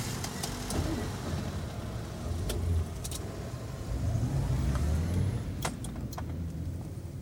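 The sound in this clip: A car drives along with a steady, fairly quiet low rumble. A few faint clicks and light jingles sound over it.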